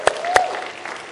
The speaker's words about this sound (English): So let's give them all a big round of applause.